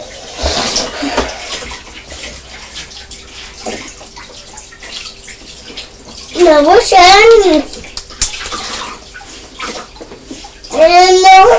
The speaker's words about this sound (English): No washing hands. We wash them now.